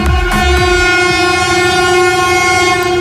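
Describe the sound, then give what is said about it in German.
An ICE high-speed train sounds a loud, sustained multi-tone horn as it crosses a newly opened railway bridge in the early morning, the steady blast lasting throughout over the rumble and clatter of the rails. “Das war ein Regionalexpress, der ICE, der direkt danach kam als zweiter. Der hat sogar ein bisschen ein kleines Hubkonzert gegeben.”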